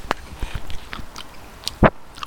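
Someone bites into and chews a sandwich: a run of soft, moist clicking mouth noises and small crunches, with one louder, crunchy burst near the end.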